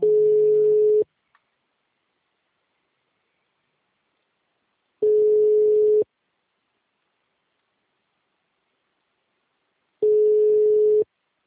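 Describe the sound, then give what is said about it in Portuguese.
A telephone busy signal plays as three steady tones, each about a second long, spaced far apart with silence between them. “O telefone encontra-se ocupado. Por favor, tente mais tarde. O número está ocupado.”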